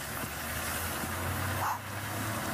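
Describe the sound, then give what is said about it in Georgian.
Steady engine rumble of a public bus arriving on a street in the Seychelles, a continuous low drone that holds at an even level throughout, with no voices. “აი ავტობუსიც იმედი მაქვს მიუსვრებ.”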